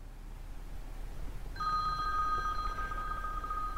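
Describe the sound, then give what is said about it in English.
A cell phone rings, its sound dulled by the sheets and pillows around it: a steady electronic ringtone with bright, sustained tones starts partway through over a constant low hiss. “I awaken to the sound of my cell. It rings, the sound dulled by sheets and pillows, and it takes me a moment to place my surroundings, to identify the ring.”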